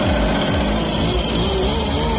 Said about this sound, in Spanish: El soplador de hojas trabaja el domingo